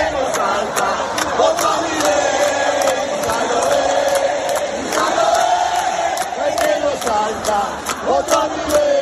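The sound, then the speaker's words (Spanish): A large crowd at a rock concert in Buenos Aires chants a rhythmic Spanish political slogan against Milei while jumping. Massed voices carry a repeating sung line, punctuated by sharp, regular beats about twice a second. “El compositor Gustavo Santaolalla, ganador de dos Óscar, estaba entre el público saltando y arengando a cantar el que no salta, voto a Milei.”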